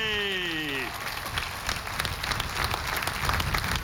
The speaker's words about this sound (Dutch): Nou, terecht applaus.